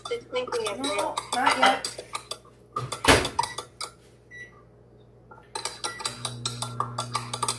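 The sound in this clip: A small spoon clinks and scrapes inside a cup while stirring. A run of quick metallic taps comes first, then a pause, then another burst of rapid clinks, with brief voices.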